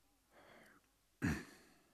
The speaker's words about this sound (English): Now I'd like you to take deep breaths in and out through your mouth.